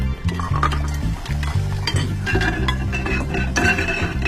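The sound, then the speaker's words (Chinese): Dishes being washed: bowls, plates and utensils clink and clatter in quick, irregular knocks, with a few sharper chinks standing out, moderately loud and without any talking. “快，先刷碗。”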